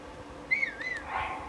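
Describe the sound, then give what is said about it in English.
Whistling from the player character in a Zelda video game: a few bright, sliding notes that rise and fall, fairly faint over a low background hum, with no talk. “Why am I whistling? I shouldn't be whistling. I didn't even try to whistle. Maybe I just pressed the wrong button.”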